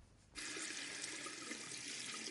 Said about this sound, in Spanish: En su baño se lava los arañazos.